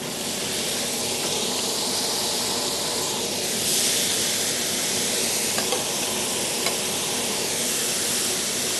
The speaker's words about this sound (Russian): У меня разогрето масло. В масло я бросаю лук.